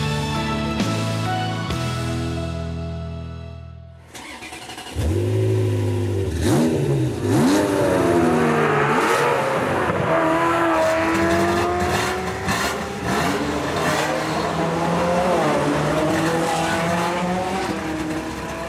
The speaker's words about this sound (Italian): Nell'ordine erano i rombi di una Ferrari 355 GTS, una Ferrari 348, una F40 e una Ferrari 458 Italia.